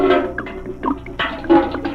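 Water sloshes and gurgles as it is poured into a gallon jug holding powdered milk, in a steady stream with a few louder surges.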